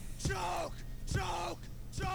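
A rock band's vocalist screams harshly in a song, with three yelled bursts at roughly one-second intervals over a low instrumental background, at a moderate level.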